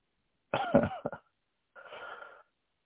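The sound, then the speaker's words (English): A person clears their throat to bring up phlegm: a harsh, rasping burst with a couple of quick catches, then after a short pause a second, softer, breathy scrape. Fairly quiet, with no talk. “You know, that clearing. That you, like, you're using your breath to scrape the phlegm off the side,”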